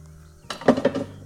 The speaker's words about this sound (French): Alors je vais sortir ma poêle.